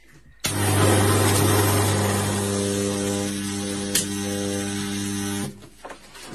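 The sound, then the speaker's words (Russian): A power tool cuts through a Chinese knife, its motor kicking in abruptly with a loud, steady buzzing whine rich in overtones, holding for about five seconds with a brief click midway, then cutting off. “разрезаю китайский нож, да?”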